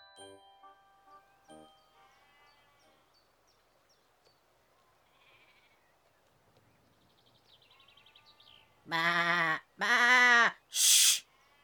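Lambs bleat in a sound effect. Three loud, wavering bleats come in quick succession near the end, after a long stretch of faint, scattered tinkling tones.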